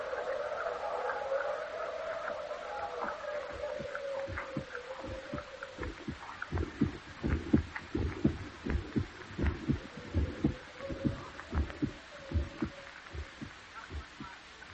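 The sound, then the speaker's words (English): A heartbeat sound effect from the radio drama of Edgar Allan Poe's The Telltale Heart plays as steady, throbbing thumps over a low droning hum, growing more distinct and rhythmic in the second half. “and all the while in his rotting brain beats the hideous rhythm of that long-stilled heart.”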